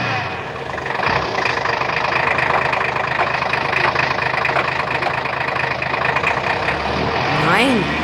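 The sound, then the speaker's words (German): Car engine as the car drives on slowly along a street: a steady, continuous mid-to-low engine hum mixed with road noise, holding an even level throughout. “Ich fahre mal ein Stück weiter.”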